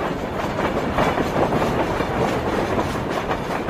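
A locomotive rolls over rails where nails have been laid for it to flatten: a loud, steady, dense rumble and rattle that holds without pause for the whole stretch, with no voices.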